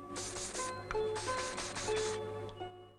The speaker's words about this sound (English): takes a perfume bottle from the safe and sprays under each armpit and in his mouth.